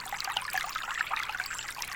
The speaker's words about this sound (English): Water trickles and touches the very crown of your skull,